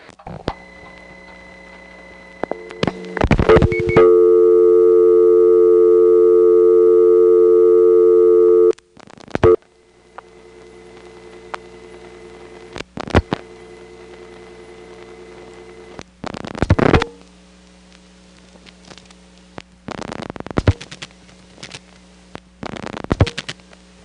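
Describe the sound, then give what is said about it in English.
A telephone dials a call to exchange 424 on a crossbar switch, with a long steady tone followed by scattered bursts of sharp switching clicks and intermittent tones, including a busy signal. “So now I'll record dialing calls to 424.”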